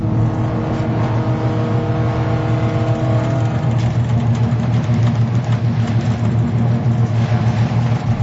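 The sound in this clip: A boat engine drones at full power as the vessel leaves port, a steady, loud, low harmonic rumble that holds evenly throughout with no voices.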